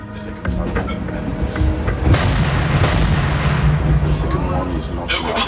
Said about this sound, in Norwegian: man står jo der og ved, lige om lidt, så skal den der store granat flyve afsted, og man ved ikke, hvornår det sker.